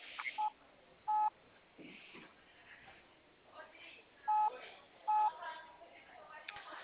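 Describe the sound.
Four short telephone keypad tones sound in two pairs as a number is dialed to add a contact for a call. Quiet talk runs between the pairs.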